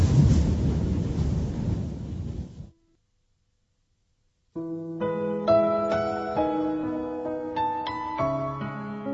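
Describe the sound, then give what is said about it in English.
A freezing winter wind roars in a low, steady rush over penguins huddled together, cuts off into silence, and is followed by calm tonal music. “The penguins huddle together for protection from the freezing wind.”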